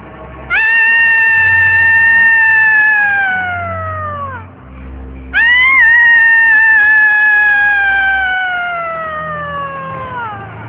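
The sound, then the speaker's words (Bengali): Loud screaming late at night: two long, drawn-out cat-like wails, each starting high and sliding slowly down in pitch, separated by a brief pause. “কি এত রাতে চিৎকার করছে কে?”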